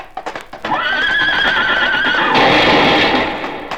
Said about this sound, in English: Look, he's riding his horse right here into the saloon.